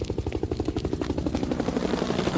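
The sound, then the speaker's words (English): A police helicopter flies overhead, its rotor beating out a rapid, steady chop that stays loud and continuous throughout, with no talking. “A helicopter! Must be the police again!”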